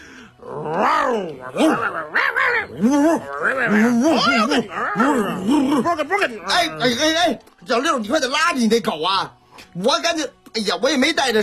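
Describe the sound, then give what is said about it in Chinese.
A voice imitating two rowdy dogs, with loud, continuous growling, groaning and whining tones that swoop up and down in pitch, barely pausing throughout. “停！怎么回事？这俩狗谁的呀？啊，这闹腾呢！”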